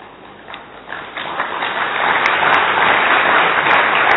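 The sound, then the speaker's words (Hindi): Applause from a group marking the close of a session. It begins as thin, scattered clapping, then swells into steady, dense clapping that holds to the end. “ताली किस लिए बजाई, समाप्ति के लिए।”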